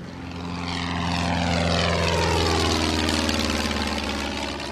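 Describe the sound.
A small propeller airplane drones loudly while doing practice takeoffs and landings. The steady engine hum swells and then eases, and its tone sweeps downward as the plane passes.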